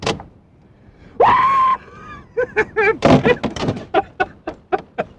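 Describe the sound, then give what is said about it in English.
A human voice imitates a lumberjack's hoop call, the shout used on the river when breaking up log jams. It gives one loud, sustained call that rises in pitch, then a run of short, rhythmic voiced bursts. “I guess the hoop would sound something like this.”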